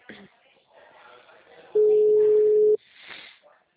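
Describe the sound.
A telephone ringback tone plays while a call is being placed: a single steady, low-pitched beep lasting about one second. Quiet talk comes before and after it.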